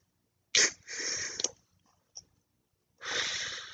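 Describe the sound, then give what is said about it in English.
An asthma inhaler is shaken in a short rattling burst, then a sharp puff is followed by a long, breathy inhalation; a single click sits between them, all fairly quiet with no talk. “You guys want to hear an inhale and from an inhaler? Here. You gotta shake it. You gotta shake it first.”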